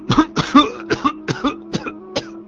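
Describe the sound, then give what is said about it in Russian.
An old man's coughing fit: many hoarse, voiced coughs in a rapid, uneven burst series, loud and with no talk around them. “хотел было сказать что-то еще, но зашелся в кашле. Я терпеливо дождался окончания приступа”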